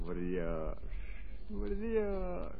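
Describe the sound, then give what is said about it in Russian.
A raven caws twice, in hoarse, drawn-out calls separated by a short gap, over a low, steady background rumble. “А ты не каркай.”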